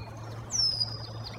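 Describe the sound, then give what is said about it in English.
A single high, falling whistled bird call rises briefly over a steady low hum in a marsh during the morning chorus, where red-winged blackbirds and a song sparrow are calling. “The morning chorus is filled with the trills, chatter, and chack of the red-winged blackbirds and the sweet call of the song sparrow.”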